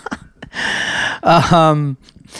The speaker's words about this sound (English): I'm just having a yawn, everyone.